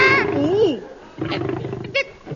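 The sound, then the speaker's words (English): A lion roars: a rough, low, drawn-out growling roar following excited voices, with a brief vocal burst near the end. “Lion! It's a lion!”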